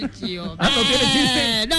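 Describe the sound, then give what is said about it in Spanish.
A voice imitates a goat's bleat: short, lower bleats open, then a long, loud, quavering bleat with a wobbling pitch holds for over a second, dipping briefly near the end. “El chivo. Claro. Es un chivo”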